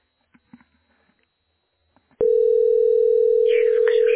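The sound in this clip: A steady telephone dial tone sounds while a call is placed. It starts abruptly about halfway through, after a few faint clicks and rustles, and then holds loud and unbroken at one even pitch to the end.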